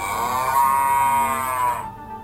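A cow mooing in a cowshed: one long, loud, steady moo that holds its pitch and cuts off near the end, heard alone.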